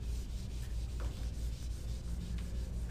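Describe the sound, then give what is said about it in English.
Erasing writing from a board: an eraser rubs steadily back and forth in a continuous, faint, dry scrubbing sound with no voices. “I gotta erase all this.”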